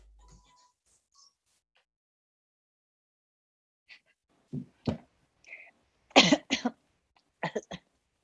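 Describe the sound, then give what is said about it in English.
A person coughs in a scattered series of short, dry bursts, several quiet hacks that come in small clusters after a near-silent opening. “I'm like in the middle of a cough.”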